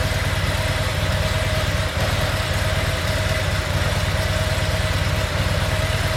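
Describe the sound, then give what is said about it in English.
Motorcycle engine idling steadily, a low, even, rhythmic putter that holds at a constant level for the whole stretch, with no voices over it. “We're going to go ahead and start the bike.”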